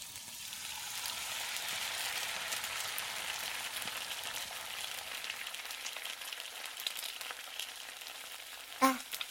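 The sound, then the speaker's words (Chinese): Food frying in a pan during home cooking gives a steady, soft sizzling hiss that thins out slightly toward the end, and a brief sharp knock sounds just before it stops. “我在做饭呢”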